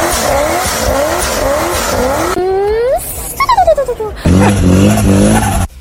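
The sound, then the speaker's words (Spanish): A Chevrolet Corvette C6 sports car engine revs hard in a series of rising pitch sweeps. It turns briefly choppy, then settles into a loud, steady roar. “Un Chevrolet Corvette C6.”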